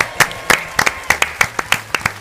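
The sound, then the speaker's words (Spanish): Audience applause for an award winner comes as scattered, distinct hand claps at an uneven rhythm. They are loud and separate rather than blended into a continuous roar. “Rocío, un aplauso.”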